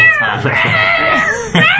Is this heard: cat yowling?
yes